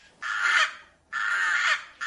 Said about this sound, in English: We've been looking into the tool use of rooks. Now, rooks are a member of the Corvid family, the crow family